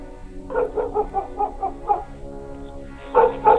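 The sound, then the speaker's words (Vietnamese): A black dog lying beside a small roadside shop barks angrily in short, tonal, yelping bursts. A quick cluster of barks comes first, then a pause, then a louder pair. “Con chó mực đang nằm lim dim bên cạnh quán lập tức nhảy chồm về phía Giang mà hậm hực sủa lên mấy tiếng.”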